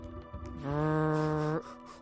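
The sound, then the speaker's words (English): A mobile phone on vibrate buzzing: a steady, fairly loud low buzz lasting about one second that starts suddenly out of light background noise and cuts off abruptly. “phone is on vibrate.”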